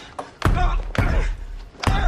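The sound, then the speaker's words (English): Heavy fist blows hammer on a reinforced, bulletproof cockpit door on an aircraft's upper deck: three loud, booming thuds at uneven intervals, each with a deep low-end knock. “hammers at the reinforced bulletproof cockpit door and puts his hand to his bleeding head”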